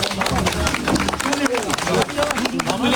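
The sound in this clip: Applause from a gathered crowd as a small boy is pulled out of a well, with many rapid, dense claps over overlapping voices and chatter.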